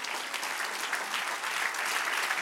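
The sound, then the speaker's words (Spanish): Applause from an audience at a Spanish-language Christian church service: a steady, dense clatter of many hands that continues without a break for the whole clip. “dale un aplauso al que reina.”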